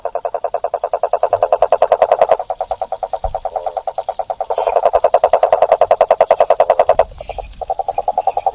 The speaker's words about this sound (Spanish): Es un sapo que en el norte le dicen rococo, sapo güey. Y tiene un sonido que me encanta, que es como un tractorcito funcionando en medio de la noche.